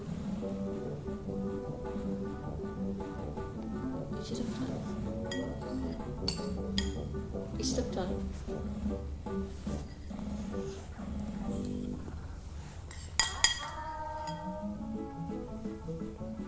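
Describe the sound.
A spoon clinks against a dish while a child is being fed: light, scattered clinks, with a brighter pair near the end, over a soft, steady background.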